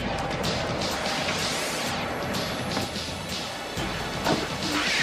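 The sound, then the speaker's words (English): A honey-processing machine shaves the wax off honeycomb before extraction, giving a continuous mechanical clatter and scraping with repeated sharp knocks and rattles throughout. “This machine shaves the wax off the honeycomb.”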